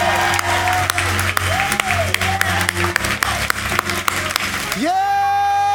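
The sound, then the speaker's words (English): Church audience shouting and clapping in praise during a worship service: dense, steady applause with sharp individual claps and raised voices, sustained musical tones underneath, then a bright rising voice as the clapping ends. “Now, if you believe it, give God the best praise you've given Him all day. Come on, shout.”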